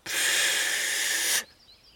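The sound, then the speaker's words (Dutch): A single long, steady breathy blow at birthday cake candles, a loud airy hiss lasting over a second before cutting off abruptly. “Ik ga net de kaarsjes uitblazen. Tilly blaast.”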